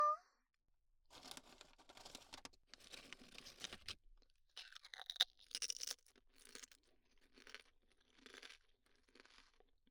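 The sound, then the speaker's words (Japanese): Crisp crunching and chewing of lightly salted potato chips eaten with disposable wooden chopsticks, with many dry, crackly bursts in uneven rhythm and no talk. “やっぱりポテチは薄塩よね、薄塩。割り箸で食べれば手も汚れない。”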